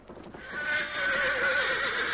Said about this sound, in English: Yes, I hear them now. Sounds like one horse traveling fast.